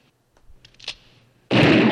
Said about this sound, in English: So we will be doing this twice because rule two of, if you've seen Zombieland, is double tap. And Albert Hainsworth is that big. So... And we'll reload.